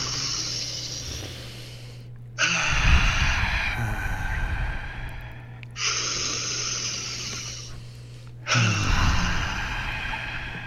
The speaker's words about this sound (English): All right, let's do it in 3, 2, 1, all the way in through the nose.